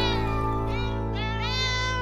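Meowing cries, a few rising and falling calls, sound over a steady music backing in a song about a crowd of cats lapping spilled cream on a dairy farm.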